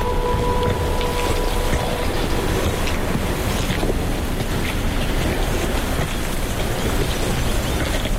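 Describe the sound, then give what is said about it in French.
Gravel rolls in waves at the water's edge, a dense and continuous rushing, crackling wash that holds an even level throughout with no clear breaks. “voici le roulement gravillonneux. Juste là, au bord de l'eau.”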